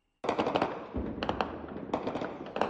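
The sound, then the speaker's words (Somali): Gunfire across the city of Goma in the Democratic Republic of the Congo: fairly faint, rapid bursts of cracking shots in a few clusters over a continuous rough rumble, with no voices. “dhawaqa rasaasta ayaa laga maqlayaa guud ahaan magaalada gooma”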